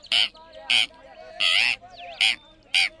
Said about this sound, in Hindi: ये तो तोते की आवाज है।